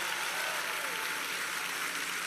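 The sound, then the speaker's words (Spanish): Faint, steady applause for a group of young men at a worship service, a continuous even patter of clapping that neither swells nor fades across its short length. “Denle un aplauso a los muchachos.”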